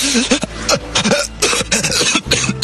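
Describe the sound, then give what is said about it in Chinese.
A person coughs violently and desperately, curled on a sandy beach after nearly drowning. Loud, rapid, ragged coughing bursts mix with rasping, strained breaths throughout. “紧接着猛地侧过身，蜷缩在沙滩上狼狈地拼命咳嗽起来。”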